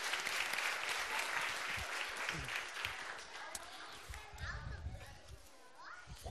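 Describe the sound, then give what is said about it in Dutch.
Sustained applause fills the whole stretch for someone who has just spoken at a gathering where songs are sung. The clapping is dense and steady, dipping slightly near the end, with voices mixed in. “Mag wel heel erg een applausje voor, hè? Goed gedaan.”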